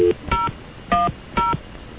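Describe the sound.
Telephone keypad dialing tones as a new number is dialed: several short, clear touch-tone beeps at uneven intervals, each a bright steady tone, alone without talk.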